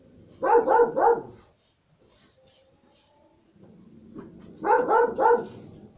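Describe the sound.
A dog barks in two bursts of about three quick barks each, separated by a quieter gap with faint background noise. The barks are loud and full-throated.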